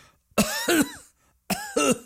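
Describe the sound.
Coughing from a person demonstrating a cough in place of throat clearing: four sharp, rough coughs in two quick pairs, separated by a short silence.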